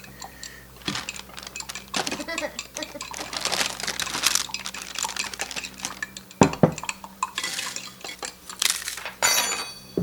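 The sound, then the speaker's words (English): Something is stirred in a pot, with irregular clinks and scrapes of cutlery against cookware and a few sharper clatters, the loudest a little past the middle. “Stir it in. There you go.”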